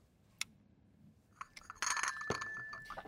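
A coffee cup is handed over and sipped. A sharp, bright clink comes first, then a few more small clinks and a busier stretch of clattering handling.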